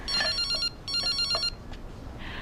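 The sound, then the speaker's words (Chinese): A telephone rings in a home during a family meal: two bursts of a bright, high, warbling electronic ring with a short gap between them, then quiet. “接个电话。”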